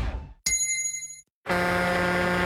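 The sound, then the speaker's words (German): A gong sounding a drink break: a single bright metallic strike that rings with clear, steady overtones for under a second, then cuts to silence before a dense, continuous sound starts. “Trinkpause. Der Gong.”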